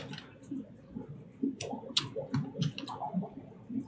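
A few faint, sharp computer mouse clicks sound while someone posts items in an online inventory. They are scattered among soft, muffled low thumps.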